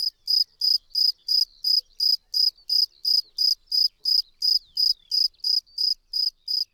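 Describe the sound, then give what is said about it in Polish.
Shrill, high-pitched insect chirping from a cricket or great green bush-cricket: a long, evenly spaced series of short pulses, roughly three per second, loud and steady with no voices. “Dla porównania warto posłuchać przez chwilę głosu pasikonika zielonego i świerszcza.”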